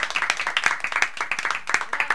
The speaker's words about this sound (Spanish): Sí, un aplauso, un aplauso, un aplauso.